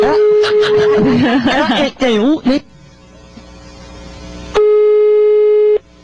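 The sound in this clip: A single ringing tone on a telephone call follows a child's voice and giggling, then a stretch of low hiss; the steady, buzzy tone lasts about a second and stops abruptly.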